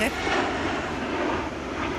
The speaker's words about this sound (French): Là, ils sont en phase d'atterrissage. Oui, ils atterrissent, l'aéroport est par là.